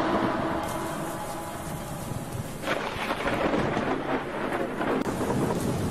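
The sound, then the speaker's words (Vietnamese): Thunder cracks and rumbles through a storm over steady heavy rain, a loud deep roar that swells about midway and stays strong to the end. “choàng tỉnh vì tiếng sét chói lòa”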